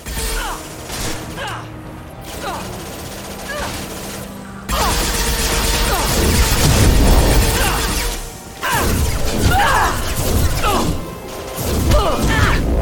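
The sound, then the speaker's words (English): Explosive barrels blow up in a shooter video game, giving loud, sustained crashing blasts with rattling, mechanical debris noise that swells and drops in several waves. “And you know what happens when you hide behind explosive barrels? That's right. Sometimes they explode.”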